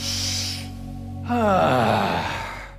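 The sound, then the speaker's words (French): Deep breathing during a vocal warm-up with arms raised: a hissing inhale comes first, then after a short pause a long, loud exhale that turns into a voiced sigh. A low steady hum runs underneath throughout. “Premièrement, les bras levés. Inspirez profondément et expirez. Comme ça, encore une fois.”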